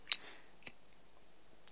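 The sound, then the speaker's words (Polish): A cigarette being lit gives three brief, sharp clicks at irregular intervals in near silence. The first click is the loudest. “Chcesz zapalić na wizji? Sobie zapalę na wizji.”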